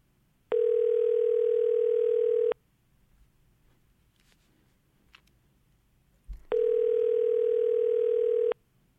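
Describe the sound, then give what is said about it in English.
A telephone ringback tone sounds while a call is placed: two long, steady, buzzy rings of about two seconds each, separated by a quiet pause of several seconds. “No. we are calling Cindy.”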